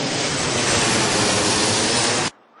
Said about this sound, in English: And I'm in Egypt now, Cairo Airport, going to customs.